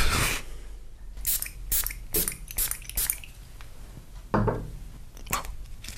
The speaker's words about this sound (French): C'est ce parfum-là. Et donc je vais le sprayer sur des mouillettes